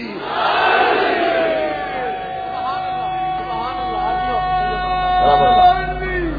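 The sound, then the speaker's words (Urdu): A crowd at a religious gathering answers the Naara-e-Haidari slogan call with a loud collective shout in unison, one long drawn-out cry sustained for several seconds and swelling again near the end. “نعرہ حیدری”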